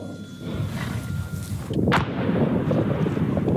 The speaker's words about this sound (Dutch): Zo klinken de schoten en de inslagen van een 60 mm mortier.